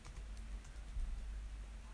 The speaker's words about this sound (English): Oh, I'm just going to type up Charlie interviewer.